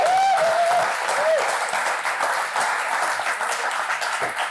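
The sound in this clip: A church audience applauds to welcome a guest speaker at a Sunday morning service, with dense, steady clapping that holds at an even loudness for the whole stretch.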